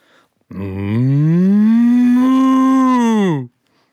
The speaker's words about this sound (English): Cow.